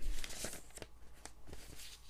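Paper pages are flipped through by hand, heard as a few faint, crisp rustling bursts spread unevenly across a quiet background.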